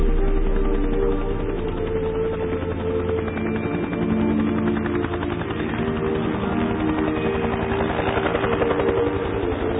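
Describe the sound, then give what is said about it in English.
Helicopter rotor blades beating in a loud, continuous, rhythmic wop-wop thudding, with a steady low throb that holds through the whole stretch. “Anybody here today who doesn't thrill to the sound of those blades? That familiar wop wop wop is the soundtrack of our war”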